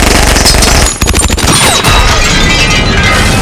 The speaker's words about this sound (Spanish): ¡Fuego! ¡Dispárenle! ¡Dispárenle!